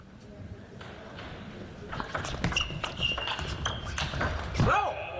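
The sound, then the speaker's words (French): Table tennis balls click in a rapid run of sharp, bright taps during a doubles match, opening with a backhand serve and building into a quick rally under a commentator's voice. “Et on va retrouver le service revers de Renfure.”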